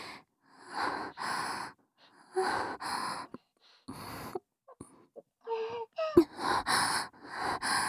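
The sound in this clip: Noisy sniffing through the nose at close range: a series of short, breathy bursts in an uneven rhythm, separated by brief pauses. The sniffs are moderately loud and there is no talk.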